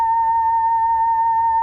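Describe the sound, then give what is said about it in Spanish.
Steady electronic tone from a box with a photodiode on top that turns the brightness of sunlight into sound: a constant mid-pitched hum with a faint higher overtone, unwavering and heard alone. “Lo que acaban de escuchar es la luz del sol. Es muy sencillo, es simplemente una caja que consta de un fotodiodo que está en la parte superior y que transforma la luminancia del sol en un sonido.”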